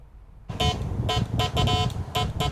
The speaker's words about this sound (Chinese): 一大早，杨建明家的阳台上传来了电报的滴滴声，这是一台70年代的发报控制箱。